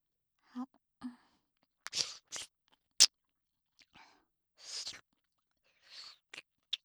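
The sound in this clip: Wet licking and mouth sounds from a candy being licked close to the ear, a series of soft, short smacks and slurps with quiet pauses between them.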